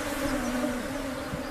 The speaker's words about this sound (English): thanks to these beautiful bees. Look at them hanging.